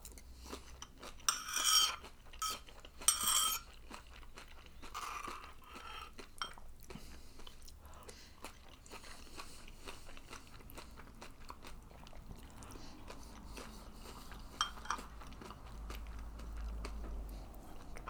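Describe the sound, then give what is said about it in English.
Crunchy Frosties cereal being eaten: a few sharp, crackly bites early on give way to quieter, softer chewing. The sound is faint throughout. “let me just eat my Frosties now.”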